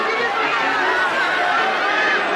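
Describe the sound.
Crowd of people greeting arriving relatives, a dense, steady babble of many overlapping voices with no single speaker standing out.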